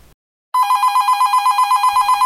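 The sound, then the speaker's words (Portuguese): A telephone rings with an incoming call. After a brief silence, a loud, rapidly pulsing electronic trill starts and continues steadily without a pause. “Opa, temos já a nossa primeira ligação.”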